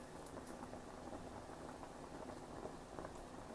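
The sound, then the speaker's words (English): Water at a rapid boil in a pasta pot, a steady and dense bubbling hiss with fine crackling pops. It is fairly faint and continuous, with no voices. “Can you guys hear the boiling water? Yes, we can hear it. Yes. So that tells me just by hearing that my water is boiling.”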